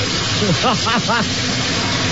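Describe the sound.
Shower water runs in a steady, bright hiss, with a person briefly talking over it.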